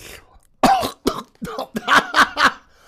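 Someone with a piece of sausage stuck in the throat coughs and chokes in a series of harsh, loud bursts separated by short pauses, with strained throat clearing between them.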